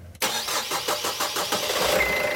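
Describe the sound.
Twin 110-horsepower engines on a pilot schooner start up. A sharp click leads into a series of rhythmic cranking pulses, then the engines catch into a steady running rumble.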